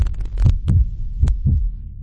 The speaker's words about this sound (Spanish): se escucha su latido.